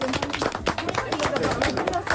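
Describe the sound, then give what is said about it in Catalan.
An audience applauds at a lively event. Many quick, overlapping claps come through loud talk and crowd chatter. “Ja està, fan aplaudiment. Molt bé.”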